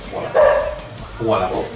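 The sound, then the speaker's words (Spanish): A dog barks twice, each bark loud and drawn-out with a voiced, harmonic tone, separated by a short pause. “claro que sí, ladra, hija.”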